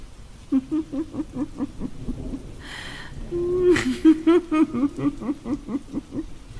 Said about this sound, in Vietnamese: trong tiếng mưa gió sấm sét thét gào